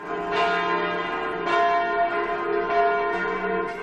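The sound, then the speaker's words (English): Church bells ring in Switzerland on a national day of mourning: several loud, resonant strikes with long overlapping metallic ringing and slow decay. “church bells rang out across Switzerland as the country held a national day of mourning”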